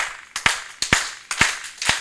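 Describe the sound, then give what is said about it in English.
Hand claps demonstrating a deep baritone tone: four sharp, hollow claps at an even, unhurried rhythm, each preceded by a faint lighter snap, with no talking. “You have the different sounds, the different tones of the hand clap. You got the baritone,”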